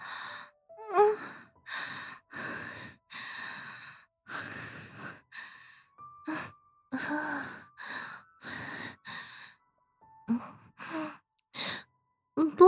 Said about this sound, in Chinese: 怎么回事？这么臭的味道，我却是控制不住的大口吸气。